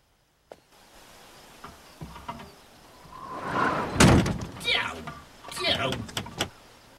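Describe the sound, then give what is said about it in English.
A wooden outhouse door is blown shut by a gust of wind and lands as one loud bang near the middle, with softer knocks and rustling around it. “He steps into the outhouse and a gust of wind blows the door shut behind him.”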